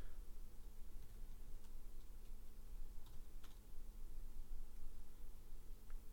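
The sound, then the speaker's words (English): Faint typing on a computer keyboard: a few sparse, irregular key clicks under a steady hiss, with no voices. “I can't talk and type at the same time.”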